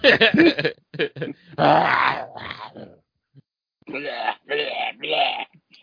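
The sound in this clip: A shark growls in a video game: several rough, throaty growl bursts of uneven length, loud and separated by short pauses, with a longer silence midway.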